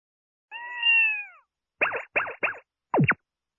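A cat meows: one drawn-out, tonal call comes first, then four short, clipped calls in quick succession, with no talk around them.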